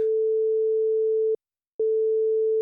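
A telephone line tone sounds while dialling a mobile operator's hotline: a steady single-pitched hum holds, breaks off for a moment, then resumes.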